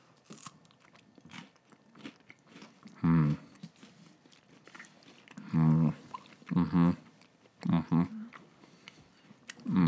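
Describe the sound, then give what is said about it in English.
Biting into a Kit Kat chocolate bar: a few loud, crisp crunches spaced out over quieter mouth and chewing noises, with no talk. “I'm eating my Kit Kat, taking a cross section bite and then a final bite.”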